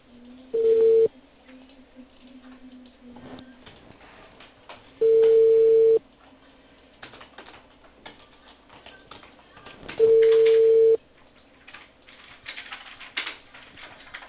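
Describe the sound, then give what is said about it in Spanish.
Ringback tone on an outgoing call from a cable company in Peru to a customer: three evenly spaced, one-second tones about five seconds apart over steady low line hiss. “Aló. Buenas tardes. Estoy llamando de Cable Perú con Juan Concepción.”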